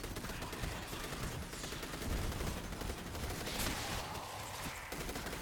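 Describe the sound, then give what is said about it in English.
Rapid automatic gunfire from a weapon in a video game, a dense, unbroken stream of shots that stays loud and steady for about five seconds. “Let me give you some game sound just for a second so you can hear this thing kind of go crazy. We're going to go over here and get a kill, because that's really what makes it fun to use as well, as you hear that fire rate tick up.”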